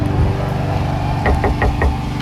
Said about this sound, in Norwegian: denne veka så kunne jeg banke på, jo, superstrikkementor Siv